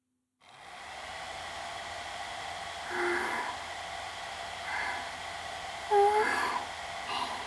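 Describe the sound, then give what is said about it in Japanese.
A hair dryer blows in a love hotel bathroom: a steady, even whoosh of airflow that runs continuously after a brief silent start, with a few slight surges in loudness and a short whistling tone near the end. “ドライヤーの勢いは悪くないですわ。”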